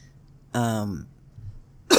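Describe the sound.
A person coughs after swallowing the wrong way: a drawn-out, throaty, voiced cough, then a brief quiet gap and a sharp, harsh cough burst at the end.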